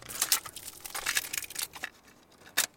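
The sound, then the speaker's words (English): Crinkling and tearing of plastic wrap come off a brand new cassette tape in quick bursts, and a brief sharp click follows near the end as the tape is loaded into a cassette deck. “That's the sound of a brand new cassette tape being unwrapped and put into a cassette deck.”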